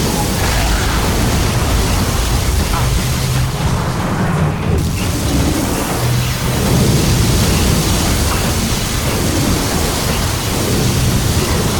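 A thunderstorm in a video game cutscene: a dense, loud, unbroken roar of rain and wind with low rumbling underneath. It stays steady throughout, with no distinct single thunderclaps standing out.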